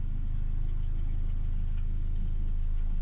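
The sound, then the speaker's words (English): Low, steady engine drone from a wide beam boat mooring up, its rough engine holding an even throbbing rumble for the whole stretch with no voices. “it rocks the boat a little bit. There you go. Boat rocking. What a noise. Someone's got a horrible engine. That'll be a crappy wide beam that's mooring up.”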